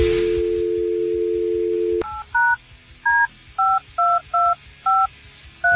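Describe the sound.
A steady telephone dial tone hums for about two seconds, then cuts off into a series of short, evenly spaced two-tone keypad beeps as a number is dialed.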